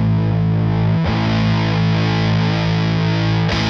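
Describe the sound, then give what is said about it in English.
An electric guitar plays through a ProCo RAT distortion pedal with its filter control in use. It gives a loud, thick, fuzzy sustained chord that is struck again twice, with no voices over it. “you turn the RAT on and you use the filter.”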